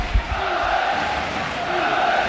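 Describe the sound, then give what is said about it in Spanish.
Football supporters at Mendizorroza stadium cheer on their Alavés side ahead of a vital match, a loud, rolling crowd roar with chanting voices blended into a steady, dense din. “despedida del público en Mendizorroza, animando a los suyos de cara a ese vital encuentro. Así suena Mendy.”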